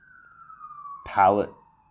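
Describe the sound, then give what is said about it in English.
A police siren sounding outside holds one long, slowly falling wail, steady and fairly loud, while a voice briefly speaks over it. “Excuse the sirens outside.”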